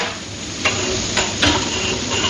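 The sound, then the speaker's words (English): Steady sizzling and frying fill the busy, overheated kitchen of the Indo Ceylon Cafe in Colombo, where traditional Sri Lankan vegetarian food cooks, with occasional clinks and knocks of stirring utensils against pans. “The smells of wonderful vegetarian cooking waft through the busy and overheated kitchens of the Indo Ceylon Cafe.”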